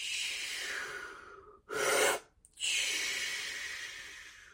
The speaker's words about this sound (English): Then I take a deep breath and